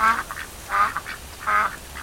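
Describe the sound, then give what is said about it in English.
Ducks quacking while eating people's sandwiches in the rain: a rhythmic run of loud, nasal, raspy quacks, with three stronger calls and softer quacks between them, over a light background hiss. “Look at the ducks. They're eating our sandwiches.”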